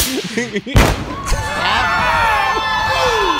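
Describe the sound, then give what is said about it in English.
A single loud bang from an explosion caught on video, surrounded by crowd noise and people's voices. “Don't get me wrong. That explosion sound. I mean, come on. That was pretty dope.”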